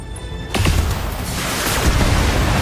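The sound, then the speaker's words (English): Weapon fire from an enemy Shadowhawk mech in a video game starts with a sudden boom, then runs into a dense, rumbling wash of blasts and sharper cracks that stays loud to the end. “It shoots at our Shadowhawk.”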